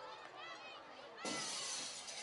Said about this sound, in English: Broken window.